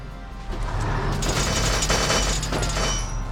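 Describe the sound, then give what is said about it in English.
Mechanical clanking and grinding of a tank rolling forward in Valkyria Chronicles. A steady rattling tread noise over a low hum swells after the first half second and holds to the end. “Let's roll the tank right in here.”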